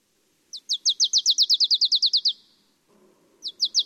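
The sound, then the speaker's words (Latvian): A marsh tit sings a rapid, even series of more than a dozen high, bright notes. After a short pause, a few more notes of the same kind begin over a faint low background rumble. “Tā izklausās purva zīlīte.”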